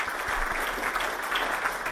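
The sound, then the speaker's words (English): Applause following a poem reading: a continuous, dense patter of many hands clapping at an even level from start to finish, with no voices over it. “Oh, round of applause. Nice one, Harry.”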